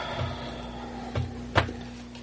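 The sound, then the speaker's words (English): Knocking on a door, heard as a few dull, low thumps spaced unevenly over a steady background hum, with no talk. “Door knocks.”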